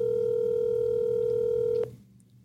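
A telephone dialing tone plays as a call is placed to a man who is away on vacation. It is a steady, unbroken mid-pitched tone held for almost two seconds, then it cuts off abruptly, leaving a low background hum.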